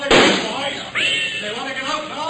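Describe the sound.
Gunshots fired among gravestones: a sharp, loud blast at the start, then a second bang trailing a brief whining tail, with lower rumbling noise between them.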